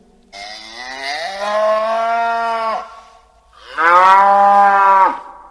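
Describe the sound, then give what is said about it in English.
A cow moos twice, two long, loud, droning calls separated by a short pause, the second slightly stronger than the first. “That's a cow. I think that's a horse.”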